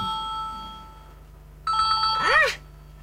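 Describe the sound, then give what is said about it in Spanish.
A telephone rings with an electronic tone for an incoming live call: one short, bright burst that ends in a sweeping chirp, over a faint steady hum. “Aquí hay una llamadita en vivo.”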